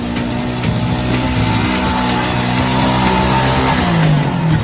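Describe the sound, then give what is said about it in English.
An older Land Rover four-wheel drive engine drones loudly and continuously as it starts a tow under tension, its pitch climbing near the end. “So we got a Land Rover. Excellent, Land Rover.”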